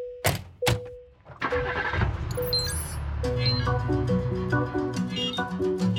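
A taxi engine cranks and starts, then runs steadily as the car drives off, mixed with a bright musical jingle and light clinking tones.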